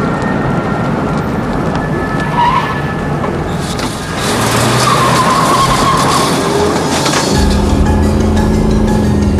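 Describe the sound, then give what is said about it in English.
A car swerves toward the curb with tires skidding, a loud, continuous rush of road and engine noise that thickens midway, with a deeper rumble near the end. “swerves the car towards the curb.”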